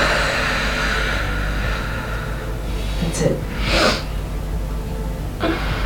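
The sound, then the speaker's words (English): A deep breath in, heard as a few short, breathy sniffing bursts over a steady low background hum. “You're under a lot of stress. I get that. Just take deep breaths. Deep breath in.”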